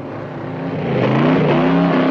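A car engine revs as the car speeds off. The throaty roar grows louder over the first second, then holds strong and steady to the end.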